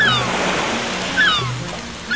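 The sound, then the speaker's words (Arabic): Waves washing onto a beach on the Bizerte coast in Tunisia, a steady hissing surf with a brief swell near the middle before easing off. “اليوم باش نرجعولها باش نزوروا شط آخر من شواطئها الاستثنائية على كل الشريط الساحلي لولاية بنزرت، اللي يعتبر من أجمل الأشرطة الساحلية البحرية في تونس”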